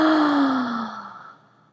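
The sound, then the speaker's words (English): A deep breath exhaled through the mouth: one long, breathy sigh with a voiced tone that falls in pitch and fades away. “inhaling deeply in through your throat. Exhaling from your mouth. Inhaling.”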